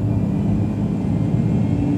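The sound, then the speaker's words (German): An airplane accelerates down a short runway for takeoff, its engine a steady, loud, low droning rumble with a constant tonal hum that holds even throughout, with no voices. “Das Flugzeug beschleunigte”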